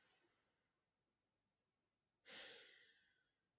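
A single deep breath breaks a pause, one short airy rush of air that follows near silence and fades away, faint overall.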